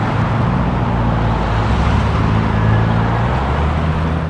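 Road traffic beside grassy parkland berms that border 14th Street and 90th Avenue: a steady, continuous low rumble of passing cars with no distinct single pass-by standing out.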